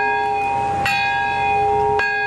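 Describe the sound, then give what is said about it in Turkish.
A peace bell rings out at an atomic bombing memorial ceremony in Nagasaki's Peace Park. Two deep, resonant strikes sound about a second apart, each leaving a long, sustained metallic hum. “Bombanın patladığı anda barış çanı çalındı.”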